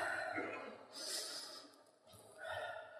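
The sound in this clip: A group of people take a breath together, producing faint, soft, airy breath sounds that rise and fade twice over a few seconds.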